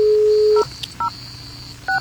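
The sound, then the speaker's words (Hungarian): A telephone number is dialled on a keypad. A steady dial tone is cut off by a key tone, and a few more short, bright double-pitched beeps follow at uneven intervals. “Felhívjuk a McLarenest, aki helyszíni jelentést ad a stadionból.”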